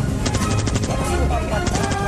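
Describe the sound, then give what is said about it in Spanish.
Rapid gunfire from repeating weapons in an Old West setting, with quick strings of shots in two loud bursts over constant background noise. “¡No había armas de repetición en el oeste!”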